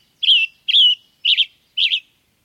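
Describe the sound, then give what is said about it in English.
A western tanager, captured for banding during migration or summer, gives four short, high chirping calls, evenly spaced and fairly loud, against silence. “During migration and the summer months, bird banders use mist nets to capture a range of species, including this western tanager.”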